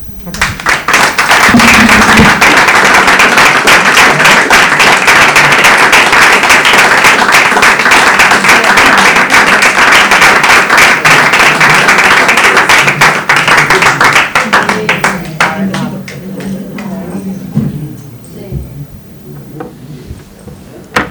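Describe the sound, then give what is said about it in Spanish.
Loud applause from the audience at an Andalusian women's presentation event: dense, sustained clapping that holds steady for about fifteen seconds, then thins out and fades. “Y ahora la vamos a aplaudir a ella, que está acá atrás.”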